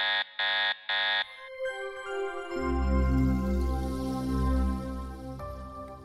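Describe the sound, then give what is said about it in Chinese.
A robot's system warning alarm: three loud buzzing beeps in quick succession, then a long, wavering, layered electronic drone. “就在爸爸下车后不久，瑞博的系统发出了警告的声音。”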